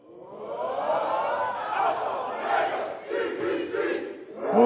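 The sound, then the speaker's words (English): A college campus crowd chants together, a loud, sustained roar of many voices that swells and dips in waves and surges again at the end. “I've heard of this, like, chant or something. The campus does some kind of chant. Let me hear the campus chant.”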